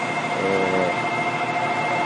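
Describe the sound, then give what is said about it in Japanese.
A freight train passes with a steady, loud, dense rumble and a faint thin metallic whine above it. No voices are heard. “今これ貨物列車が通過中ですけど”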